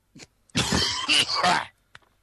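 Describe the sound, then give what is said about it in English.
Harsh, rasping coughing in one long noisy burst with a couple of brief breaks, with short faint sounds just before and after it. “What, the coughing? Yeah. Okay. Or wheezing.”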